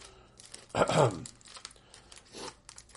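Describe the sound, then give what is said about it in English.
Hockey card packs being torn open: one loud, rough rip of wrapper near the start, then quieter crinkling and a second, softer tear later. “This is the exciting portion of the show where it's an audio podcast, but we're going to open up hockey cards for a visual exercise.”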